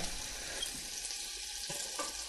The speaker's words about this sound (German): So, Butter drinnen die Zwiebelchen da rein.